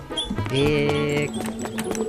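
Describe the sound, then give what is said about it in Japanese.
A small creature's cry in a video game: a short, bright, harmonic squeal of about a second, with a few soft clicks around it and a lower tone trailing after. “マーキットの鳴き声かな、可愛いね、これ。”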